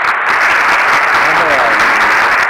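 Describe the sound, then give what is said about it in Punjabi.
Audience applause at a birthday celebration, a dense, unbroken wash of clapping that stays loud and steady from start to finish. “ਇੱਕ ਵਾਰੀ ਤਾੜੀਆਂ ਹੋਰ ਬਣਦੀਆਂ ਨੇ ਬਾਬਿਓ”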